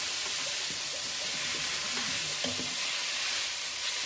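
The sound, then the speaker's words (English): Vegetables sauté in a pan over medium-high heat for chicken soup, giving a steady hissing sizzle broken by many soft clicks and scrapes from stirring. “So I'm going to saute these for about 5 to 10 minutes, and you can start to tell when they're tender.”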